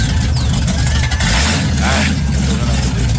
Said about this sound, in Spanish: Se tiene como el exhausto roto. Bueno, lo va a mandar a soldar también. Listo, ese arranca.